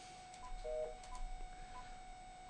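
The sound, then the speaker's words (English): Telephone keypad tones dial a number: a few short, faint electronic beeps spaced irregularly, including one slightly longer two-note tone, over a quiet, steady background hum. “I'm trying to dial a number. We're going to see if I actually dial the right number.”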